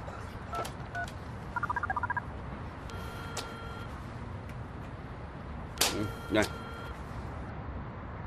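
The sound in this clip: A telephone number is dialled on a keypad: a quick run of short, even beeping tones, followed later by further electronic tones, while people talk faintly underneath.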